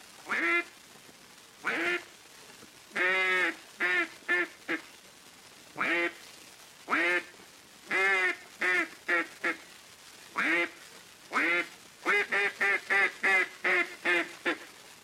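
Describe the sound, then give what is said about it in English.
A handheld duck call imitates a wild mallard hen sitting on water, sounding many nasal, raspy quacks. They come in spaced single calls at first and end in a quicker run of quacks. “Here is the call of the wild mallard hen sitting on water.”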